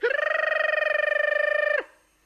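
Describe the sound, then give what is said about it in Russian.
A school bell signalling the end of a lesson gives a single steady, rapidly trilling ring that lasts just under two seconds, then cuts off abruptly. “Для нас самый приятный звук – звонок с урока. Ну что ж, порадую ваш слух.”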